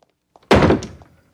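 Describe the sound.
A door closes with a single solid thunk: a short, dull impact that fades quickly and stands alone against silence.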